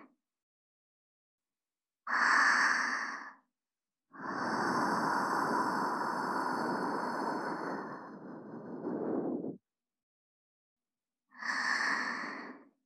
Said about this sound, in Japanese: 掃除できました。こちらもふうふうします。